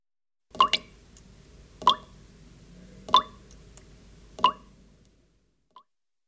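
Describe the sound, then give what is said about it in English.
Water drips in four clear, evenly spaced drops, each a short bright plop with a ringing tone, followed by a faint fifth drip after a longer gap. “Drip.”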